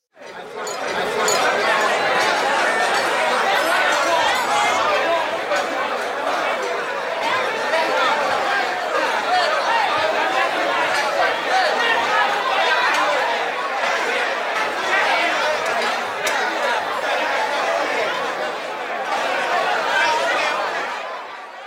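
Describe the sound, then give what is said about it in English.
Dense chatter from a busy contemporary restaurant: many overlapping conversations with bursts of laughter form a steady, loud wall of voices that runs throughout. “It was, of course, the oh-so-dulcet tones of a contemporary busy restaurant, a sonic lullaby that amplifies profitability.”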